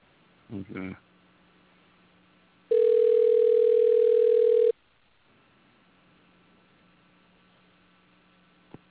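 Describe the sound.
One steady ring tone on a telephone line, about two seconds long and much louder than everything else, with a low electrical hum before and after it and a short voice burst near the start.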